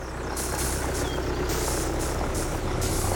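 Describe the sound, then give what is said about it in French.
A tractor engine running steadily, giving a loud, continuous low rumble with a rough, chugging texture. A higher hiss comes and goes on top of it. “Un tracteur, c'est donc une bestiole des champs.”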